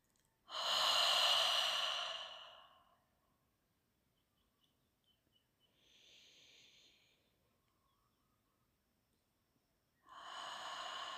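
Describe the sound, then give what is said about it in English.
Deep breathing during a guided relaxation, inhaling to expand the diaphragm and exhaling through the mouth: two long, loud, airy breaths with a faint softer breath between them and near-silence in the gaps. “Four of these deep breaths, expanding the diaphragm on the inhalation, exhaling through the mouth.”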